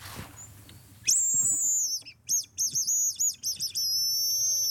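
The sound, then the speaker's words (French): A tit gives high, piercing calls as a warning to a hazel grouse: one long sustained note, then a rapid series of short repeated chirps, then another long held note, loud and clear over a quiet background. “Et oui, c'est la mésange qui nous répond.”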